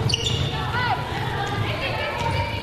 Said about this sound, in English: Rolls off the rim, no good. Ball bounces around, controlled by Summit.